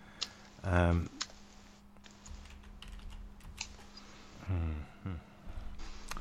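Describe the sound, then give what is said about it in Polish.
Clicking of keys as a phone number is typed on a keyboard, many light, irregular taps, with a voice briefly talking at a couple of points. “Teraz to, co słyszycie, to jest, jak wklepuję tenże numer.”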